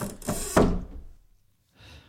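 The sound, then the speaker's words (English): A door being locked: a couple of dull, solid thunks in quick succession, a fading rattle, then a brief faint rustle after a short pause. “Is there a lock on that door? There is. He may kick it in, but yes, I just locked it.”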